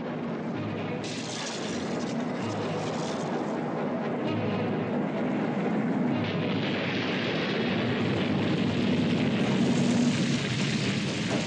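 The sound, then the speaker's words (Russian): A burning railway tank car explodes after rolling down a slope beside a factory, heard as a deep, sustained roaring rumble that fills the whole stretch without one sharp blast standing out. “Достигнув подножья, одна из цистерн взрывается.”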